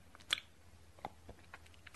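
Faint crisp bites and soft chewing clicks from someone eating sugar-sprinkled fruit off a fruit platter, a few quiet irregular snaps with little else around them.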